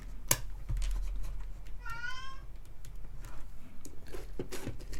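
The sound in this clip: A cat wandering between two rooms meows once, a short wavering cry over a steady low hum, with a few faint knocks around it.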